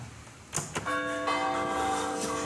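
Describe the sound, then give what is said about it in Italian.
Bronze bells of the mother church in Agnone ring out. Two bright strikes come first, then a full, sustained peal with rich humming overtones rings on at a steady loudness. “campane della chiesa madre San Marco Evangelista, Agnone.”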